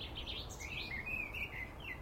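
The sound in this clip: Thrush song, faint and high, comes as a run of warbling, chirping notes that continues throughout over a low steady rumble, with no voices.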